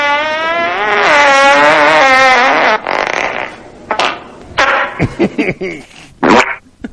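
A loud, drawn-out buzzing fart let rip in a car just as it starts, wobbling in pitch for about three seconds, then breaking into several shorter sputtering bursts.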